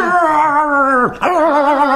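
A dog gives a drawn-out, wavering tonal cry on command, loud and clear. The cry dips and breaks briefly midway, then resumes, with no talk over it.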